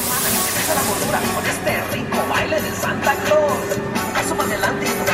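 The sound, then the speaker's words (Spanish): Inside a moving metro train in Mexico City, a dense roar of rail rumble and hiss is broken by repeated clattering bangs from the carriage. “Estamos de vuelta en la Ciudad de México, al interior del metro, porque nos vamos hacia el sur”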